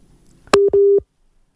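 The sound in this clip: A telephone busy tone sounds after a caller's line drops during a call: a sharp click, then two steady, low electronic beeps, the second longer than the first, followed by silence.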